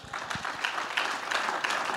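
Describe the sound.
A church audience applauds in acclamation of the Lord, a brief burst of dense, continuous clapping.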